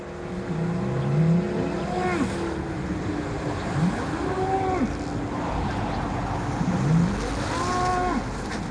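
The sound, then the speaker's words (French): A Belgian Blue bull or cow by a roadside lows a few times, with drawn-out moos rising and falling over the constant roar of motorway traffic. “Pique-nique sur bord de route en tête-à-tête avec un bleu-blanc belge.”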